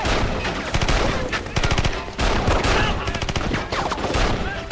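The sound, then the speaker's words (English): Gunfire in a firefight: dense, rapid volleys of shots overlapping into a near-continuous loud clatter, with sharp bursts of automatic fire and no clear pauses. “Doyle and Jack succeed in felling a number of the enemy, but now Doyle is hit and falls. Jack appears to take a bullet in the chest and falls onto his back and lies still.”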